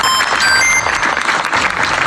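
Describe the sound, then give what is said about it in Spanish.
Applause from an audience at a government event, a steady, dense wash of clapping that stays at an even loudness throughout with no voices. “Un aplauso, por favor, para PepsiCo.”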